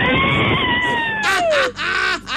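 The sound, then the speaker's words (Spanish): Shouting from a group of building workers putting in foundation pilings and a floor for a house in Huaquén: one long high cry that slides steadily downward, then several loud, rough overlapping yells that break off in short bursts. “A ver, un gritito de los compañeros.”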